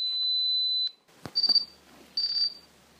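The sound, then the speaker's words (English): An avalanche transceiver beacon beeps on activation with high, pure electronic tones: one long beep, a sharp click, then two shorter beeps, all clear and loud. “A lot of skiers carry something called an avalanche receiver or beacons on them, which sound like this when they're activated.”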